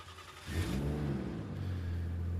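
A car engine revving as the car drives off, a low drone that swells sharply after half a second and then holds as a steady, loud hum with no voices.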